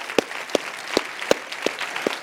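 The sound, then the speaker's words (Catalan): Six evenly spaced claps, sharp and moderately loud over a faint hiss, given as applause for historic cinemas at a fantastic-film event. “En aquesta pantalla han passat moltes pel·lícules, també en el Retiro del Prado, un aplaudiment també per als cinemes històrics d'aquest lloc.”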